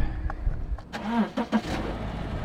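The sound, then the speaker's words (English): A car engine starting before a road trip: a few faint clicks, then the engine turning over and catching into a low, rumbling idle that carries on steadily to the end. “I'm going to get my car keys and I'm going to take the podcast on a little road trip here.”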